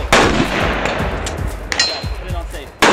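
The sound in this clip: Rifle gunshots at a shooting range during a gun safety class: loud, sharp, booming cracks, one at the start and one near the end, with smaller pops and rumbling echoes between them.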